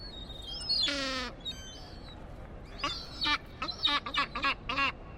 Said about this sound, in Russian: А вот так кричит хохотунья.